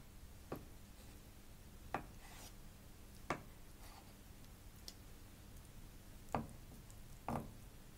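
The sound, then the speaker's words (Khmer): A knife cuts tofu into chunks on a plate, giving a few short, sharp taps and scrapes at irregular intervals with quiet gaps between. “ខ្ញុំកាត់វាមួយដុំហើយយើងយកដាក់ចូលក្នុងចាន”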